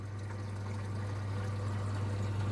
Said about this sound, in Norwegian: For nå går pumpa der, og så fyller dette seg opp til det kommer til det store røret der.